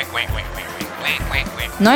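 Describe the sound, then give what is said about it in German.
Quacking from a duck that had landed in front of a football goal: a few short nasal calls with a rising, harmonic cry at the end, mixed with voice-like sounds. “Einmal versuchte er eine Ente zu fangen, die vor seinem Tor gelandet war.”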